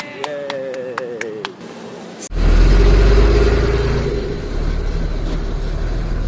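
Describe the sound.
Engine rumble of a free shuttle bus carrying riders about five minutes to the Toda boat race course. The steady, loud low drone starts abruptly partway through and holds to the end.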